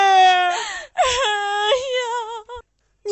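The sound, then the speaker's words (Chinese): A woman wails and sobs in grief over her dead husband, making loud, drawn-out, quavering voiced cries in several bursts broken by short catches of breath. “娘，娘，不要哭了”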